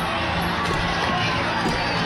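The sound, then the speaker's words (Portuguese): A large street crowd in Havana chants slogans in protest against the 1962 withdrawal of Soviet missiles from Cuba. Many voices merge into a loud, continuous roar with no breaks. “Nas ruas de Havana há gritos de ordem.”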